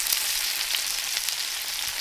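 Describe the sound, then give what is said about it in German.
Pork pieces fry in their own fat in a pan, giving a steady, dense sizzle and crackle that holds at an even level throughout, with no voices. “Ab geht's in die Pfanne. Wir braten die Stücke in ihrem eigenen Fett an.”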